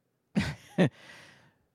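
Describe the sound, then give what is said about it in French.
Loud breathing through the nose: two sharp, forceful nasal breaths close together, the second shorter, followed by a softer, trailing exhale that fades out. “je m'entends moi-même, madame. Je m'entends moi-même. Il faudrait que j'arrête de respirer par le nez.”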